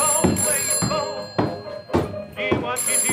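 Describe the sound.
A telephone rings in repeated loud bursts with short gaps between them, a bright, buzzy tone with a few dull thumps among the rings.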